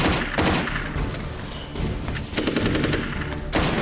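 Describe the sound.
Automatic gunfire from a shootout in a Steven Seagal action film. Loud, dense bursts of rapid shots and heavy thuds fill the whole stretch with barely a pause.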